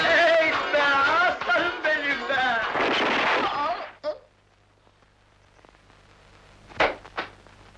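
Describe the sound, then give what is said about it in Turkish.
Gunshots fired into the air in celebration in a village. People talk first, then a few sharp, separate bangs ring out with quiet stretches between them. “Aa bak, baban keyfinden silah atacak havaya.”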